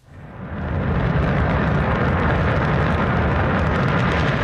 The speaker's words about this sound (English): That's the sound of China's Shenzhou 23 rocket blasting off on Sunday from the Jinquan Launch Center in Inner Mongolia.